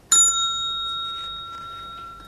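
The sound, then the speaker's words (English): A telephone rings at lunchtime as a single bright bell strike, whose clear high tone hangs on and slowly fades away with no other sounds around it. “The telephone rang.”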